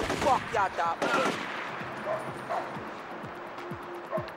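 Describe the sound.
Gunfire in the video game GTA 4: several loud, rapid bursts of shots in the first second or so, then quieter scattered shots and thuds over a busy background.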